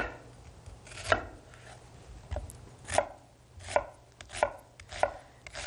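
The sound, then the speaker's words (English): Sharp knife strikes as an onion is sliced thinly for a stir fry, several crisp chops spaced irregularly and growing more regular, each a bright, clicky thud against the board. “So I'm just going to cut these. We wanted this relatively quickly, so I'm going to cut the onion reasonably thin.”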